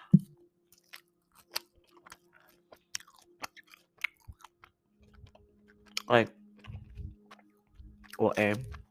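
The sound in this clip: A person eating: a string of small, sharp chewing clicks and crunches at an uneven pace, mostly faint, with a voice briefly sounding twice toward the end.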